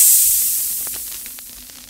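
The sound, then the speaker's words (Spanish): Spaceship hatch doors open with a steady, airy high hiss. The hiss starts loud and fades gradually and evenly, with no other sound over it. “¡Llegamos! Abriendo compuertas.”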